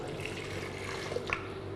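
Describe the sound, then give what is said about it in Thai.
Chicken broth pours steadily into a dipping sauce, about 150 grams of it, as a continuous soft watery rush and splash with no talk over it. “เราก็จะใช้น้ำซุปที่ได้มาจากการต้มไก่นะคะ150กรัมค่ะ”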